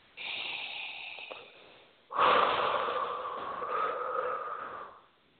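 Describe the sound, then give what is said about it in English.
A slow deep breath: a long, softer inhale, then a louder, longer exhale that tapers off, with no talk. “A deep breath.”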